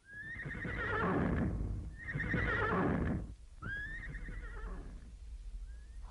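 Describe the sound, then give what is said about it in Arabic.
Three long whinnies from a galloping horse, each a loud neigh that starts high and slides downward. Low, rumbling hoofbeats run steadily beneath them throughout. “وارخت كل منهما العنان فانطلق بها الحصان وكأنه يسابق الرياح”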